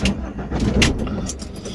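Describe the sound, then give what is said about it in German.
A parked car's engine being started, heard as a low rumbling motor with a few sharp clicks and rattles on top, fairly loud and without talk. “Warum machst du jetzt den Motor an? Fahren wir jetzt?”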